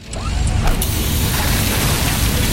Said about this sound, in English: Oh, busted hose.